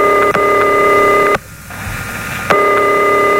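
A telephone ringing tone sounds on an unanswered call in a radio prize call-in contest: a loud, steady buzzing tone breaks off for about a second, then resumes.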